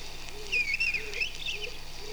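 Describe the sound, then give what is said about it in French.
Bird chirps played from a cassette recording: a few thin, high chirps and twitters in quick bursts, faint over a steady low tape hum and hiss. “Ouais, je mélange un peu, j'ai mis aussi une cassette des oiseaux.”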